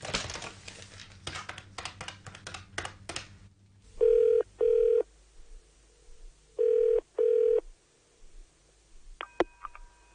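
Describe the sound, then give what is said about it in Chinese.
A telephone call being placed: a run of rapid dialing clicks, then the ringing tone in two double bursts with a gap between them, then a single sharp click as the line picks up. “打个电话俾佢先。”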